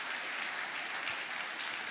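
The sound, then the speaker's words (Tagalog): A church audience applauds during a worship service, many hands clapping in a steady, continuous patter that stays faint and even from start to finish. “Palakpakan natin ang Panginoon, mga kapatid.”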